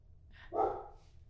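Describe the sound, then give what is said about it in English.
A dog barks once downstairs, a single short, mid-pitched woof over a low background hum. “That's our dog downstairs.”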